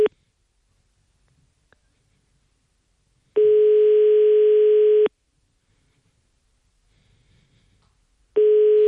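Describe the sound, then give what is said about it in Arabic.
A telephone ringback tone sounds on an unanswered call. Long, steady, buzzing tones of under two seconds each repeat after silent gaps of about three seconds, with a faint click in between. “التليفون تيصوني لا جواب.”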